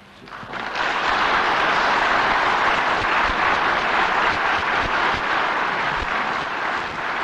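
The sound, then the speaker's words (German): Members of the German Bundestag rise to applaud the newly sworn-in federal chancellor after his oath of office. The clapping swells within the first second into a dense, steady roar that holds to the end. “Stehend spenden nun die Abgeordneten des Deutschen Bundestages dem soeben vereidigten neuen Bundeskanzler ihren Beifall.”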